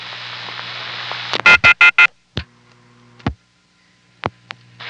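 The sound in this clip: A steady buzzing telephone-line tone with a low hum, followed by four loud, rapid clicks and then a few scattered sharper clicks separated by quiet gaps.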